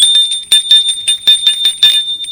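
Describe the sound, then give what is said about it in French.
A doorbell ringing at a house, with many rapid, bright metallic rings repeating in quick bursts over about two seconds, each carrying a steady high-pitched tone. “Alors, il sonne chez Gilles.”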